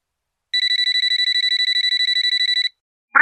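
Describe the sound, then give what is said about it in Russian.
An electronic telephone ring: a loud, rapid train of high warbling pulses lasting about two seconds, then silence and a brief sharp sound at the very end. “Размышления Далилы прервал телефонный звонок.”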